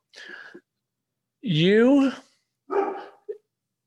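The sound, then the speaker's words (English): Dog barking: a few loud barks, one longer and drawn out with a wavering pitch, then a shorter bark and a brief yip. “that's my dog barking. No barking.”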